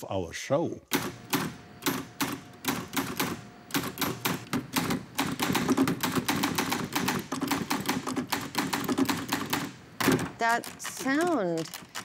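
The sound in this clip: A typewriter types rapidly. Many sharp, clacking keystrokes come in quick, irregular runs, and near the end a brief pause leads to a few whirring, sweeping mechanical sounds.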